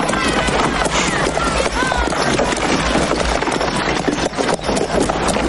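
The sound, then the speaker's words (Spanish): Horse-drawn cart rolling into a Western frontier town: steady clip-clop of hooves with rattling wheels, loud and continuous throughout. “Al día siguiente, un carro sobre el que van Doc y una mujer con un vestido rojo entra en la ciudad y se para delante de donde están Wyatt y sus ayudantes.”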